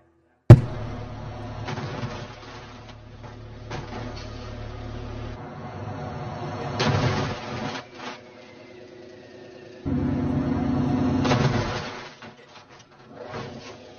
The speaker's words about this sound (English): Let's take a look at a crash test.